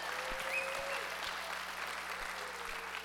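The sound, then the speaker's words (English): A church audience claps together in steady, continuous applause, a soft, even wash of many hands at moderate loudness that neither builds nor fades across the moment. “So if you are here on site, would you put your hands together, get loud.”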